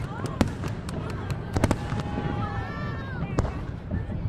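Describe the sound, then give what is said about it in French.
Fireworks burst during Tet, the Vietnamese New Year, in Hanoi. A few loud, sharp bangs and crackles cut through a steady noisy din with faint voices, and thin whistling streaks rise and fall between the blasts. “Et le feu d'artifice du Tet, c'est vraiment le couperet qui tombe.”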